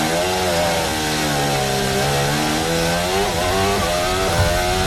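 A Formula 1 car's engine accelerating, recorded onboard: a loud, continuous buzzing engine tone that holds fairly steady, dips briefly, then climbs again.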